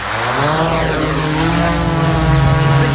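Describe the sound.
A drone's propellers whir loudly as it takes off, a dense, buzzing multi-tone whine that holds steady and strong for about three seconds, its pitch shifting slightly.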